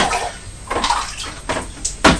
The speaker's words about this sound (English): So hang on, we'll put the water wheel in the white bowl and we'll just start taking water from the brown bowl.